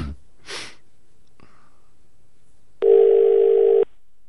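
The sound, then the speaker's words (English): A telephone is dialed: a few faint handling and breathing noises, then a steady, fairly loud telephone tone held for about a second before stopping abruptly. “I've dialed the wrong number.”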